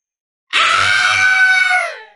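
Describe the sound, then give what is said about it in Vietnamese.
A long, shrill, ferocious scream from a winged monster starts abruptly after a short silence and holds at a steady high pitch for about a second and a half before cutting off. “Trong miệng Phệ Kim Tiên Thái Ước Cảnh phát ra tiếng thét dài thê lương, hung ác tới cực điểm.”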